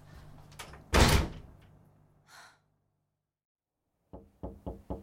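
Knocking on a door: four sharp raps in quick succession at the end, after an earlier louder burst of noise and a quiet pause.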